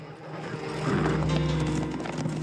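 Hoofbeats of a posse's horses riding in a western scene, a rough clip-clop that swells louder after a quiet start and keeps a busy, uneven rhythm.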